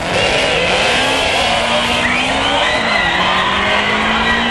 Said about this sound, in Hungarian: Ha valaki nem ismerte volna meg, Kimi Räikkönen. Bizony, motorhangra jobban föl lehet ismerni.